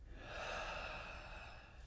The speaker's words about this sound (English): let's take a big deep breath together. Just in and out.